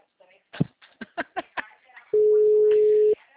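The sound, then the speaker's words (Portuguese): A telephone call rings out unanswered. A single steady electronic ringback tone holds for about a second, after a short stretch of brief speech. “Gente, ninguém atende essa ligação.”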